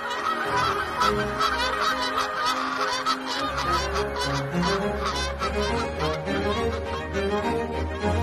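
Wild geese honking: many loud, nasal calls overlap in a continuous, busy chorus that holds steady throughout, with no talk.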